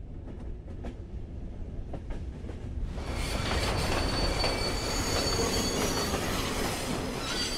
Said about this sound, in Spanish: El tren vuelve a frenar.